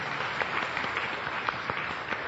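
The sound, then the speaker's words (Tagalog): A church audience applauding in praise of the Lord: dense, steady clapping from many hands, even in loudness throughout. “Okay, palakpakan natin ang Panginoon, mga kapatid.”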